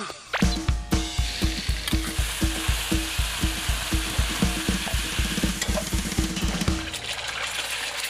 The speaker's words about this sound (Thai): ไปจ้าเดี๋ยวเราเอาไข่ไปให้แม่ทอดกันค่ะไข่ดาวเยิ้ม